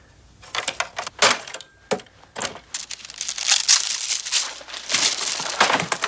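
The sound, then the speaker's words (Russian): A page is torn out, giving a long run of crisp paper ripping and crinkling in many uneven bursts that grow denser and louder toward the end. “Вырывает страницу.”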